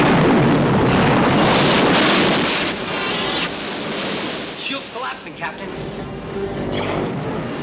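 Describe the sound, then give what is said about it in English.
Starship weapons firing at a shielded enemy base in a science-fiction battle: a loud, dense, continuous roaring blast that eases after a few seconds into a rougher, fluctuating rumble. “A few shots, sir. Not enough against their shields.”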